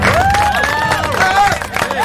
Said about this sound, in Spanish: Este aplauso para ustedes.